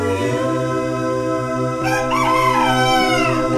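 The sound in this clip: A rooster crows in one long, loud, drawn-out call that holds steady throughout, with no talk over it.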